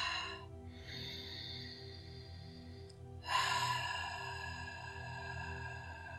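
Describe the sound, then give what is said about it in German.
Ujjayi breathing, a soft friction sound made in the throat during yoga, comes as long, airy hissing breaths separated by brief pauses, two sustained passes following a short opening breath. “wenn du die Ujjayi-Atmung kennst, diesen Reibelaut, dieses,”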